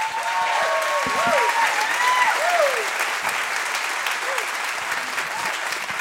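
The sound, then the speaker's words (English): Audience applause welcomes a guest on stage for an interview, a broad, even roar of many hands clapping. A voice speaks over it in the first half, then the clapping carries on alone at steady strength. “Would you just put your hands together and welcome my friend Masab?”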